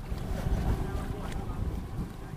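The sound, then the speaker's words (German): Motorboat engine rumbles steadily while crossing Lake Victoria toward an island near Kampala, Uganda, in the early morning. The low, continuous drone is mixed with rushing wind noise and stays even throughout. “Als sich das Motorboot nach 20 Minuten Fahrt von Ugandas Hauptstadt Kampala der Insel nähert, ist von diesem Garten noch nichts zu sehen.”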